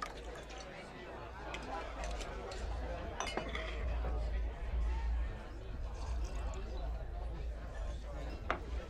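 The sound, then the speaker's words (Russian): A bartender pours a glass in a bar: light liquid trickling and several bright glass clinks, with murmuring voices in the background. “Зашел в бар, и бармен налил ему стакан.”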